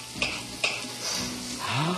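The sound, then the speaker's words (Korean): Onion, garlic and green pepper sizzle in a pan as they are stirred. Two sharp utensil scrapes stand out early over the steady, fairly quiet frying hiss. “Let's put in our garlic, 마늘. And our green pepper, 우리 피망. And we stir.”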